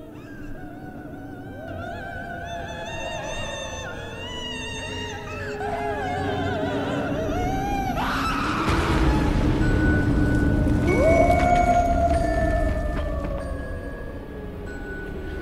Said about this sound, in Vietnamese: cả người sống lẫn người chết, cả người dương lẫn âm binh đều có thể nghe rõ tiếng oan hồn đang kêu gào.